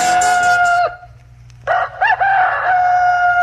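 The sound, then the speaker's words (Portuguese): Rooster crowing in two long, loud calls: the first is cut off before a brief pause, and the second follows with a wavering, harmonic cry. A low steady hum runs underneath. “Olha o galo cantando!”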